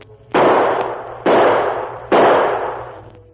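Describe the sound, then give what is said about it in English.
Three loud gunshots, evenly spaced, each striking with a sharp crack and then trailing off in a gradually fading, ringing decay before the next shot. “3 more shots. 3 more. But the last bullet, I must save it.”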